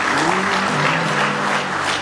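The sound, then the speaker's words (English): An audience at a church service claps hands in praise, a dense, even burst of applause that stays loud and steady throughout. “Give him one more hand clap of praise tonight.”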